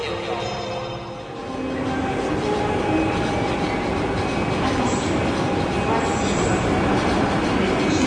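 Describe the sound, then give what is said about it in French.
A train from Lyon pulls into the Gare de Lyon station in Paris: a loud, continuous rumble of wheels on rails with thin, high squealing tones. The level dips briefly near the start, then builds and holds steady. “on est à Paris, à la gare de Lyon, et on attend le train en provenance de Lyon justement, avec Didier”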